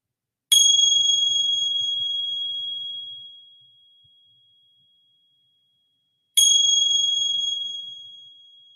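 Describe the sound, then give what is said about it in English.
Meditation bell rung twice, each strike a bright, high, clear ring that decays slowly over several seconds, the second strike coming about six seconds after the first, with stillness in between. “receiving the sounds of the bell”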